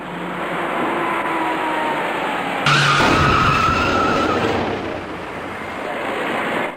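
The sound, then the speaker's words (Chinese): Tires skid as a taxi rear-ends a red car on a busy road: a sustained harsh screech over steady traffic noise, with a sudden louder burst partway through. “一起两车严重追尾的事故，转眼间就发生在由西向东方向的最里侧车道中。仔细看看，一辆出租车的前部撞到了一辆红色小客的尾部”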